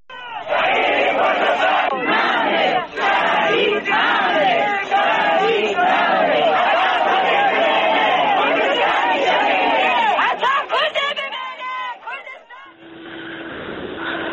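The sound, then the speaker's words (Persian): A crowd of mourners chants slogans together at a graveside memorial. The loud, rhythmic voices continue with little pause before they thin out near the end. “بشنویم با هم بخشی از صدای کسانی که بر مزار آرام حبیبی جمع شده بودند و شعار میدادند.”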